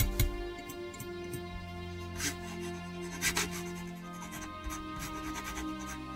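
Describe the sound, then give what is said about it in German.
A pen scratches across paper as a birthday letter is written, faint irregular strokes over a low steady hum. “Kurz zuvor schreibt Bismarck seinem 14-jährigen Sohn einen Geburtstagsbrief.”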